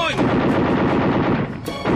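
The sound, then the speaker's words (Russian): Rapid machine-gun fire from a bomber's gun shooting at attacking enemy planes, a dense, loud, continuous rattle of shots for nearly the whole stretch, dipping briefly near the end before resuming. “Это немцы! Атакуют наш бомбардировщик! Пулеметчику приготовимся! Огонь!”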